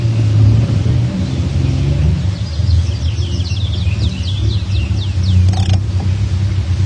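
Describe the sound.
A car rumbles low and steady as it coasts along a road beside a meadow, while birds chirp faintly above the engine noise midway through. No voices are heard.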